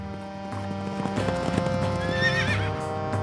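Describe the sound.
Horse hooves clip-clop in a steady rhythm, joined by a wavering whinny near the end.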